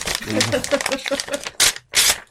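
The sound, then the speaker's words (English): A sealed paper envelope is ripped open: after a stretch of a person talking, two short, rough, noisy tearing bursts follow. “I have in my hand a sealed envelope like Darren Brown, and I'm going to rip it open now.”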